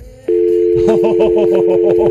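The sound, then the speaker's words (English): Steady, loud telephone dial tone that starts abruptly and holds one pitch, soon joined by a rapid run of repeated pulsing tones layered over it until the end. “Do you hear that? That's the sound of open phone lines.”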